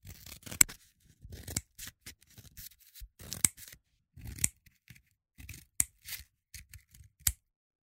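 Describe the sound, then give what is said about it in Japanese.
Scissors cut repeatedly into the end of a pipe, chopping it into small pieces: many short, crisp snips in an irregular rhythm, quiet and alone with no talk. “パイプの端から深くハサミを入れる。何度も繰り返し細かく切る。”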